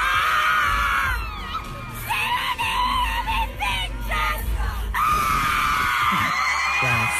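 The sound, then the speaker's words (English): A concertgoer screams and sings along at a live show, her shrill, piercing voice loud and continuous over the low music and crowd noise throughout. “This goes on throughout the entire show. She's singing along and screaming to everything.”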